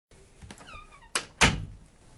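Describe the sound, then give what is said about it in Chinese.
A door being pulled shut, ending in two solid thuds a moment apart, the second louder and heavier. “等乔雨离开，把门关上”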